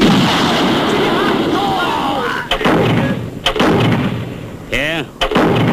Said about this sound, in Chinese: 日本人已经是第四次炮击了，弟兄们伤亡不少。